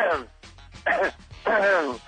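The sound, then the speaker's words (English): A person clears their throat in a few short, gravelly voiced bursts, fairly loud and separated by brief pauses. “I love when you clear your throat when you're doing your stupid news”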